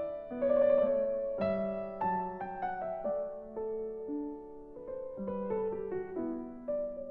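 Solo piano recording of Bach's Goldberg Variations, fairly quiet, with clear note attacks in a flowing upper melody over a moving bass line.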